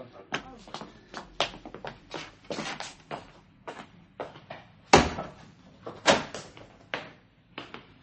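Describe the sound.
A shop door being opened: many sharp clunks, rattles and knocks in an irregular sequence, with one heavier bang near the middle and a few louder thuds after it.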